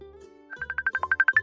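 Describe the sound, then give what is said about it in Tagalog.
A phone rings for an incoming call. After a brief low tone, a quick, even run of many short, bright electronic beeps follows and grows louder over about a second. “Ano ba to? Tumatawag na agad. Kailangan ko tuloy sagutin tawag niya.”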